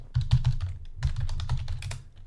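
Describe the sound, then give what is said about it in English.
Keys clatter on a computer keyboard in a quick burst of many taps, with a brief pause near the middle before the rapid typing resumes, with no voices. “let me type in.”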